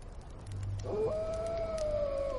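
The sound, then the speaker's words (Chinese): A single long wolf howl in open wilderness slides upward, then holds a clear, steady tone that sinks slightly as it trails on, sounding alone over a faint, low background hiss. “远方一声狼嚎平地而起，紧接着这空旷的荒野上狼嚎声此起彼伏着，声势惊人。”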